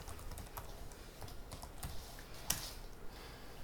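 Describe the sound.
Typing a short email on a computer keyboard, many quick, faint key clicks in an uneven rhythm, with one slightly louder keystroke partway through.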